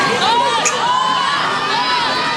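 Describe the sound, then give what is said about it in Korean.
Mexican children cheer at the Korean national football team's first open training in Guadalajara, Mexico, waving Korean flags; a bright, high-pitched wash of young voices shouting and cheering holds at a steady, lively level throughout. “축구대표팀의 첫 공개훈련 현장에 몰려든 멕시코 어린이들이 태극기를 흔들며 환호합니다.”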